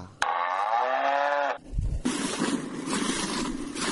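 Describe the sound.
A cow moos at a livestock milking yard, one long low harmonic call that ends abruptly, followed by a dull thump and then continuous rustling, windy noise.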